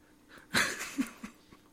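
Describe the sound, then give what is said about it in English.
A dog pants in a garage, giving a few short, breathy puffs at uneven intervals, soft and airy, with no one talking. “and I'm stuck in a garage with a dog”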